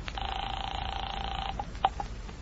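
A telephone being dialed to call a home near Louisburg Square: a steady dial tone holds for over a second, then a few short beeps follow. Faint, with no voices.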